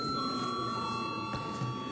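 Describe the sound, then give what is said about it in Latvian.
Bell ringing in a parliamentary chamber to call members before a vote, a faint, steady electric ringing tone held continuously for the full two seconds without a break. “Lūdzu vēlreiz zvanu.”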